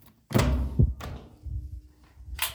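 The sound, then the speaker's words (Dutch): The door of a secured technical room is unlocked with a few dull thunks and knocks of lock and handle, separated by short pauses, then a brief brighter click near the end. “Ja, dit is een beveiligde ruimte. Dus even van het slot af.”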